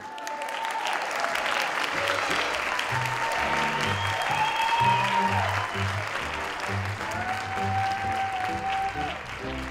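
An audience applauds a ventriloquist and his dummy after their act. The clapping is steady and full throughout, with no pause.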